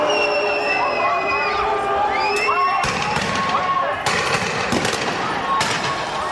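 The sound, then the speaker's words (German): Crowd uproar and shrill whistling from a riot in Geneva after a demonstration, where police use water cannons, rubber bullets and tear gas. The noise is dense and continuous, with several sharp bangs in the second half. “In Évian-les-Bains ist damals der G8-Gipfel und in Genf wüten nach einer Demonstration Chaotinnen und Chaoten und Vandalen. Die Polizei schreitet mit Wasserwerfern, Gummigeschossen und Tränengas ein.”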